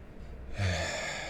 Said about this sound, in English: just try slowing down your breath and breathe as low down into your belly as you can. So take a big deep breath.